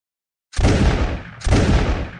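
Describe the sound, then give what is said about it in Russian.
Two sharp pistol gunshots fired across a forest clearing, each a loud, abrupt crack that trails off into a fading rumble, spaced about a second apart after a moment of silence. “Прозвучали два выстрела.”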